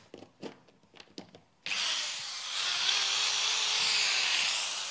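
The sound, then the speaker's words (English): A power drill starts abruptly after a few light taps and runs in a loud, steady, high whine to the end. “now I have power. Now I can operate. Now I can drill holes. Now I can make damage.”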